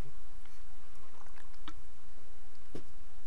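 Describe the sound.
Soft mouth sounds from drinking a beer: a few faint, brief gulping clicks and wet squishes over a quiet, hissy background.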